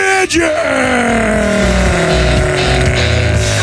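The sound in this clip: A car engine starting and revving for a race start, a sustained throaty roar that climbs steadily in pitch and stays loud throughout.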